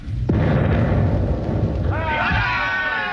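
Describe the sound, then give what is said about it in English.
Ship's cannon firing a round in a radio drama: a single sharp boom followed by a sustained low rumble, with a man's voice rising over the noise near the end. “I'll give them a round directly amidships. Right. More right. More. There. All set. Fire!”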